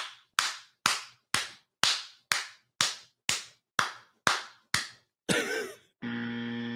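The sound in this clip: Sharp hand claps repeat in a steady, even rhythm, each one crisp and quickly decaying. The run ends with a noisy burst and then a sustained buzzing tone.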